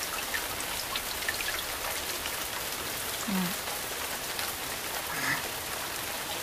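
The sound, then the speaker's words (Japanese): Rain falls in a steady, even patter, fairly faint and continuous throughout, with no voices. “久しぶりだね、雨。 うん、 すごい音だ。”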